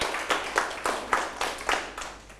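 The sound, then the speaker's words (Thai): Students in a classroom clap together in a steady rhythm, a short run of about eight even, crisp group claps. “เอาปรบมือเพื่อนหน่อยครับ”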